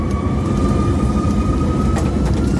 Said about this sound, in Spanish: Estas son las turbulencias. Bueno, despegue efectuado